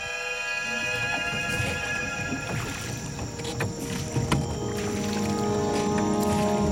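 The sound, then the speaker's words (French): Paddle strokes push an evening pirogue, a dugout canoe, through water near Manaus in the Amazon in the early twentieth century, rowed by a man in a white suit. Steady watery swishes run throughout over a constant tonal hum. “Ce soir-là, une pirogue vogue sur l'eau au rythme des coups de rame d'un homme élégant en costume blanc.”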